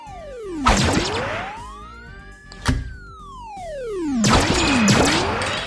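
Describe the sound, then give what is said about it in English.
Blocks being broken in a video game, heard as a few crashing thumps over loud tones that sweep down and back up in pitch. “Gonna break those blocks. Boom.”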